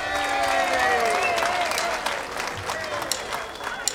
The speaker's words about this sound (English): Hey, let's put your hands together and welcome our next original member to perform here tonight.